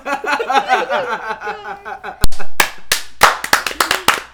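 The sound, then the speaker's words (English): Hands clapping: a quick, irregular burst of many sharp, crisp claps follows a stretch of people talking, each clap a loud, dry snap. “clap, clap, clap.”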